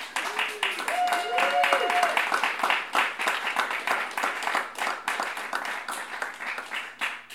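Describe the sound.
An audience at an author's evening book event applauds to welcome the speaker. Many hands clap in a steady, dense patter that rises and falls slightly in loudness, with a voice briefly heard near the start.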